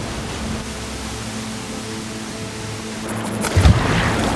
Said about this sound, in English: Sun-dappled, flowing water, then a waterfall gushing down a mountainside.